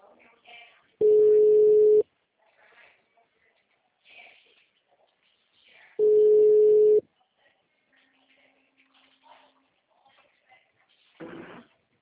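An outgoing telephone call's ringing tone sounds as two steady, low-pitched tones, each lasting about a second and separated by a long pause, with faint scattered noises in the quiet gaps.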